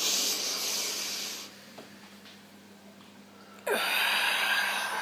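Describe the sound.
Slow exhaling breath during a guided relaxation and breathing exercise: a long, soft, airy hiss that fades, a quiet pause, then another breathy exhale begins.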